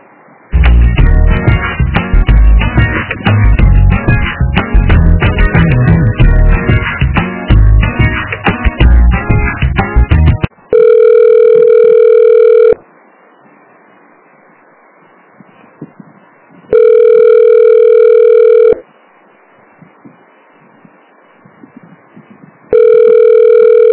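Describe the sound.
Loud hold music plays for about ten seconds, then a telephone rings back during a call transfer in two long, steady tones separated by quiet pauses, with the start of a third at the end.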